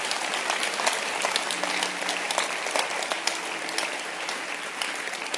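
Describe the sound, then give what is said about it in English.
An audience claps hands in steady, dense applause, a continuous patter of many individual claps at an even, moderate loudness throughout, with no voices rising above it. “Clap your hands for shepherds.”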